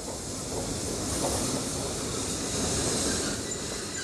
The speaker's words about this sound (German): Der gerade eingefahrene Zug fährt weiter nach Plymouth.